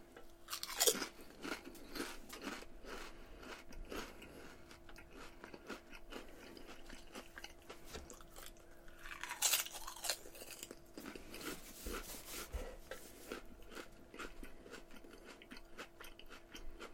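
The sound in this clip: Potato chips being crunched while eaten during a tasting: many faint, irregular crisp bites and chewing crackles, alone with no talk.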